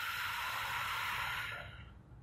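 A deep breath is blown out in one long, breathy rush that is fairly quiet and steady throughout, then tapers off softly at the end.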